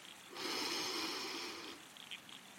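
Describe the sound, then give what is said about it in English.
One slow breath drawn in: a soft, airy hiss that swells and holds for over a second before trailing off. Faint and alone. “Take a breath in”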